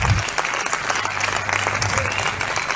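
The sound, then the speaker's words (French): A church audience applauds to acclaim Jesus during a sermon. The clapping is dense and steady and continues at an even loudness from start to finish. “Est-ce qu'on peut acclamer pour Jésus?”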